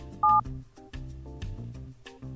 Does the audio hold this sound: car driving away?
no